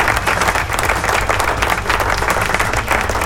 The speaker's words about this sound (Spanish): ¿Dónde están los aplausos? Ahí están los aplausos.